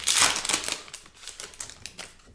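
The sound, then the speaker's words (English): A pack of trading cards is opened with crinkly tearing and rustling of the wrapper. The noise is loudest at the start, then breaks into a series of smaller crackles and rustles. “Open her up. See what you get here. See if these are stuck together like some of these newer cards that are kind of glossy.”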